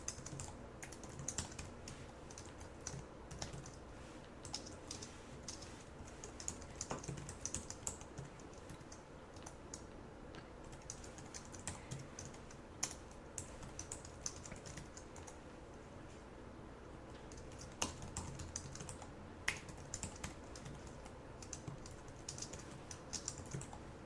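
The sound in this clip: Code is typed on a computer keyboard in a long, steady stretch of many light, quick key clicks. The rhythm is irregular, with occasional louder keystrokes and no voices.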